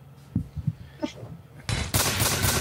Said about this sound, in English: Booming blade. Here comes that boom.